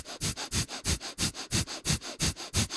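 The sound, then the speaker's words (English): Breath of fire breathing: short, forceful belly breaths in and out through the nose, many quick sniffing pulses in a fast, even rhythm, with no talking. “What's the breath of fire for people that haven't practiced? Just belly breathing that's really short, in the nose, out the nose”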